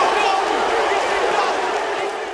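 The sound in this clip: Wrestling crowd roaring and applauding in a standing ovation after a balcony dive moonsault: a dense, loud wall of voices and clapping that holds steady throughout and eases slightly toward the end.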